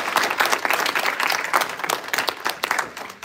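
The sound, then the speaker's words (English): Church audience giving a round of hand claps: a lively patter of many individual claps with sharper spikes scattered through it, fairly loud and easing off slightly at the end. “Can we give the Lord a hand clap? Amen. Let's give him a hand clap.”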